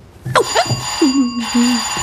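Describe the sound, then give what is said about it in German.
A doorbell rings at a house's front door: a short, bright, electric-sounding ring of a few tones, moderately loud and heard on its own. “Wer ist denn das jetzt? Klingeling, die Klingel.”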